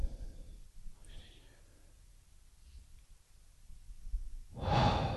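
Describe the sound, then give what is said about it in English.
A deep breath drawn in during a guided meditation: a soft, airy rush that swells near the end after a long, quiet stretch. “And then another strong deep breath in,”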